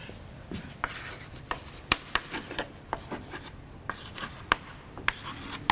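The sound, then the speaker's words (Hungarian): Pen or chalk scratches out the end of a math equation, with quiet rubbing strokes broken by many sharp taps at an uneven rhythm, all fairly faint and without speech. “És a háromszoros gyöknél csak a végét írom.”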